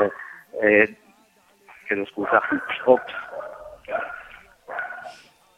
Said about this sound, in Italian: C'è anche il cane che vuole giustamente mobilitarsi contro Expo.